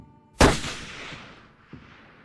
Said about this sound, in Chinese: 两女取下身后的狙击枪，退后至百米外的距离开始架枪。 爆头。